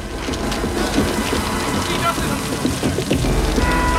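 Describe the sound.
Steady rain pours over a small-town street as men scatter to search. A dense, even hiss of drops stays at a constant level throughout, with a low rumble underneath.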